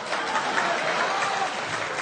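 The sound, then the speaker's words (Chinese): Audience applause: an even, moderately quiet wash of many hands clapping that holds steady for about two seconds. “这还带掌声呢”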